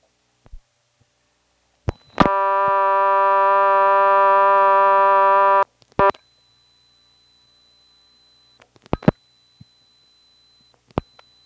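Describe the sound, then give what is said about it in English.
Telephone on a party line dialing 2-2-1-1: a click, then a steady buzzy dial tone for about three seconds that cuts off with clicks, followed by scattered sharp dialing clicks over a faint high whine. “So I'm going to dial 2-2-1-1.”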